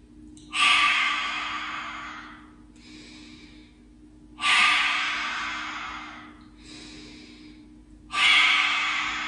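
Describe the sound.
Slow, deep breathing during a guided relaxation exercise, inhaling and exhaling. Three long, loud, airy breaths alternate with two shorter, softer ones, and no one talks.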